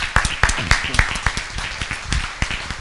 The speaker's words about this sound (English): Yeah, I think a standing O is all right.